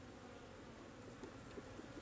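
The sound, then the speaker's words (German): Honeybees buzz as they fly out from their hive, a steady, faint droning hum with a few brief louder passes toward the end. “Wenn man genau hinguckt, sieht man, dass die Bienen alle den Kopf hier zu ihrem Behausung haben und fliegen jetzt hier so weg.”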